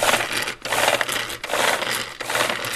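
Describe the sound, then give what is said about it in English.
Seeds and chaff whisked in a container with a modified whisk make a dense, rattling, rustling noise in four sustained bursts, each separated by a brief dip. “we will take the seed and as you say, all the sort of chaff and all the rubbish, as it were, put it into that. And then we will whisk this.”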